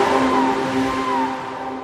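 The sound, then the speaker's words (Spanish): A Honda PCX125 scooter with an ESP Plus engine hums with a steady tonal drone, and its pitch dips slightly now and then. “Descubre la nueva Honda PCX125 con su potente motor ESP Plus de bajo consumo.”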